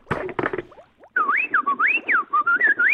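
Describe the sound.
A voice imitates the R2-D2 droid from Star Wars with rapid warbling whistles that sweep up and down in pitch. A short burst of noisy sound comes first.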